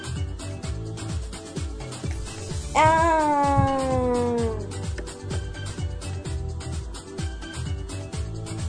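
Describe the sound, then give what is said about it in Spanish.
A white kitten in a mobile app game, playing with a ball, lets out one long, drawn-out meow whose pitch sags slightly toward the end, set against a steady, rhythmic game music loop. “Y ya tengo un gatito blanco jugando con una pelota.”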